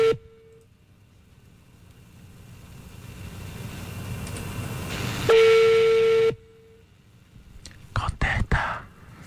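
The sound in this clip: A telephone tone after a rejected call: a single loud, steady mid-pitched tone lasting about a second over faint hiss, with fainter traces of the same tone before and after.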